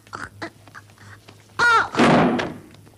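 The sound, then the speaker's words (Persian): A chair being knocked over gives one loud, heavy crashing thud that lingers for about half a second, right after a short, high-pitched squawking cry; faint voices murmur before it. “دیدی صندلی رو انداختن”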